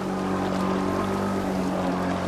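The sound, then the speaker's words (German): A motorboat carrying traders and fishermen plows across the waves of Lake Victoria. Its engine gives a constant, loud drone with a low humming undertone and rushing water noise, holding steady without pause. “Das Motorboot pflügt durch die Wellen des Viktoriasees.”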